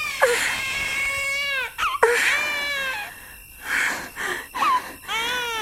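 A newborn baby girl cries just after birth in a few high, wavering, strained bursts separated by short gasping breaks, loud and alone with no voices.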